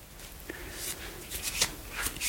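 A deck of cards being shuffled for a reading, with soft papery riffling bursts repeating quietly.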